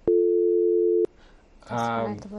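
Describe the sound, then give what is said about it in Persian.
A telephone tone sounds as a call is cut off: one steady, unbroken tone lasting about a second that stops abruptly, after which a voice begins speaking. “دوی د ټلیفون قطع سو.”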